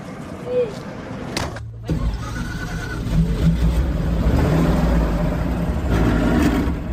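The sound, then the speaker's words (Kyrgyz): Engine rumble of an old Soviet-era bus setting off from Talas toward a village in Manas district, a steady low drone that dips briefly early on, then swells and holds loud as it pulls away. “Ал үчүн атайын ушундай союз кезинен бери каттап жүргөн эски автобустар каттамды аткарат. Анда эмесе кеттик.”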